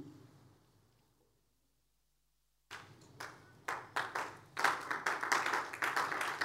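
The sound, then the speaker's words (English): Church audience clapping during a service: after a quiet lull, scattered claps start up and build into loud, steady, rhythmic clapping from many hands. “You should be clapping better than you are doing.”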